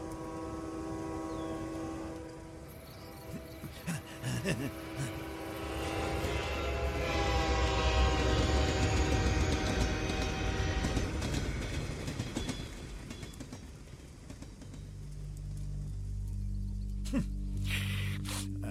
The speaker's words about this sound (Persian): قطار هر یه ربع بار حرکت میکنه. میتونی اینو تو بقیه برنامه هام بشنوی.